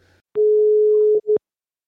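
Phone line tone after a caller hangs up: a steady, mid-pitched electronic tone holds for nearly a second, then cuts off before one short, matching beep. No voices.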